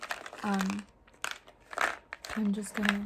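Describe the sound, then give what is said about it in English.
Close-up crisp crunching of ice cubes being chewed in an ASMR performance, crackling bursts alternating with soft unintelligible vocalizing. “But apparently here you guys chew your ice cubes.”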